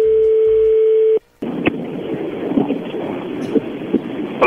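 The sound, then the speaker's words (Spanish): Telephone line sounds as a call is placed: a steady dial tone holds for about a second, cuts to silence, then gives way to band-limited line hiss with a few scattered clicks. “ahí se está marcando”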